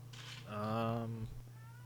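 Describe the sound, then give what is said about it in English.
A pet cat gives a single drawn-out meow, steady in pitch and lasting under a second, over a low constant hum with no talk. “I'm betting you can also hear my cats in the background, can't you? A little bit.”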